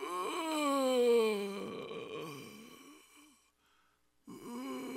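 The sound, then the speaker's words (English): A person groans aloud while praying in tongues: a long, wavering moan that slides downward, then a lower, rougher groan that fades, a brief silence, and the groaning starts up again. “I began to groan. I went,”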